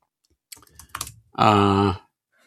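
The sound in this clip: Typing on a computer keyboard while entering a search into a new browser window: a short, quick burst of several light keystrokes lasting about a second.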